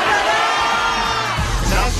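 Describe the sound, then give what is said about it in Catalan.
A studio audience shouts their home towns all at once on a countdown cue, producing a brief, loud jumble of many overlapping voices. “A la de 3 podeu cridar, sisplau, d'on heu vingut tots alhora? A la de 3, d'acord? Una, dues i tres.”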